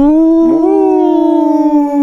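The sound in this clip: A loud wolf howl, part of a blended mix of animal sounds, forms a single sustained tonal cry that rises briefly near its start, then holds steady with a slow slight fall in pitch.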